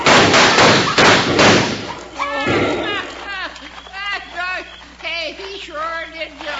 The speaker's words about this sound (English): I'm sliding down the cliff. And it ain't easy either when you're 83. Was that you making all that racket?